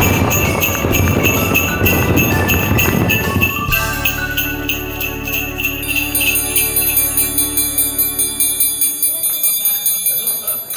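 Jingling bells in a festive Christmas setting, bright ringing tones layered over a dense start, then settling into a steady, rhythmic pulse of clear bell notes through the second half, loud and without speech.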